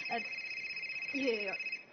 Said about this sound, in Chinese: 我看一下，不好意思啊，我接个电话啊。